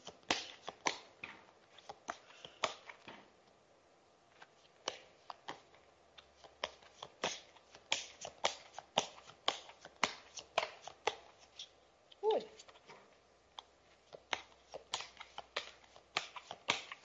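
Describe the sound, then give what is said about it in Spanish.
Tarot cards being shuffled by hand: a long run of many crisp, papery riffles and soft slaps that continues throughout with short pauses, and no talk. “Vamos a mover las cartas, vamos a sentir la energía.”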